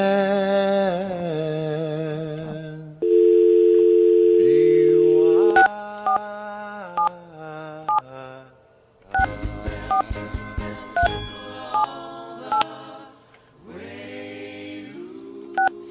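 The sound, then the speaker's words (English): A telephone dial tone sounds as a steady, even hum for a couple of seconds, then gives way to many short, bright keypad touch tones tapped out in quick, uneven bursts as a number is dialed. “All right, we're going to dial.”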